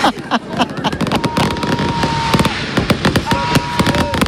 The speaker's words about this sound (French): Jamais très loin dans les esprits, même quand on voit un joli feu d'artifice. Vos réactions à ce feu d'artifice stéphanois capté par Aurélie Jacquan.